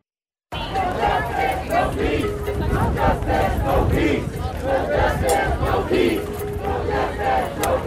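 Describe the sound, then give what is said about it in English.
Street protest against police brutality in South Florida, a crowd shouting and chanting in a loud, sustained roar that begins abruptly after a brief silence. “Well, what you're hearing is protests. They continued across South Florida over the weekend from Jupiter down to Homestead, focused on police brutality.”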